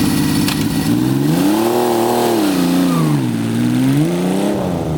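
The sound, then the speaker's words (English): An inline six car engine revs hard in a loud, continuous growl. Its pitch climbs, falls back, then rises again near the end. “That's what they actually sound like. The other one is nothing. It's an old one. Didn't run the same. This is actually an inline six.”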